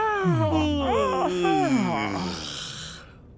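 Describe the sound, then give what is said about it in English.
Several people yawn aloud together, their drawn-out voiced yawns overlapping and wavering in pitch before fading away. “We can all yawn.”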